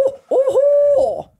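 A person imitates an owl hoot: a short hoot, then a long, steady, sustained hoot with a wavering start and trailing end. The call is loud and stands alone.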